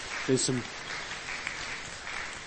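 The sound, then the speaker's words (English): A round of applause from an audience at a church gathering honoring six pastors. Clapping forms a continuous hiss throughout, with a brief voice heard over it near the start. “Okay, everyone give these men a round of applause.”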